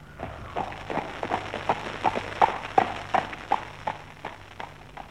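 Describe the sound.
Steady, evenly spaced hoofbeats of a horse pulling a carriage clip-clop in a brisk rhythm, moderately loud, with no voices.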